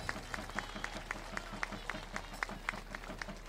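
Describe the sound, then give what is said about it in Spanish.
A crowd at a religious gathering awaiting a papal visit claps in rhythmic unison, keeping a brisk, even beat throughout over a constant low hum and a faint murmur of voices. “Fuerte el aplauso al cielo y apurando la visita de León.”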